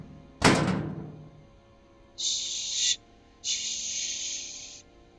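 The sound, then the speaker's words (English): A dumpster lid slams shut with a single heavy, booming thunk that fades out. Two sustained hissing shushes from a voice follow it. “Help me close the lid.”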